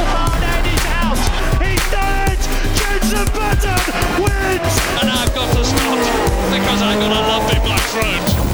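Formula 1 race cars starting a Grand Prix roar together in a dense, continuous wall of high-revving engine whine, with squealing tires threaded through the loud, unbroken noise.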